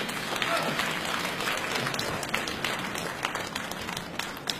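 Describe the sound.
An audience applauds at a stage comedy show with dense, steady clapping throughout, joined by some crowd noise.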